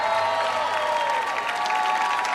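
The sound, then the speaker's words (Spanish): Audience applause for a two-woman music duo at a radio event, a steady, moderately soft wash of clapping with a faint crowd murmur, unbroken from start to finish. “Fortísimo aplauso para ellas.”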